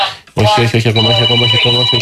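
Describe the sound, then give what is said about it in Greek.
A telephone rings with a steady electronic tone that comes in abruptly and holds loud for the rest of the moment, with voices talking over it. “Όχι, ακόμα, έχει τηλέφωνο, σας παρακαλώ, μετά.”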